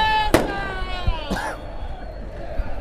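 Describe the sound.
Rock concert crowd erupting after a smoke bomb goes off: a sharp bang over a rowdy roar, with shouting voices rising and falling through the noise.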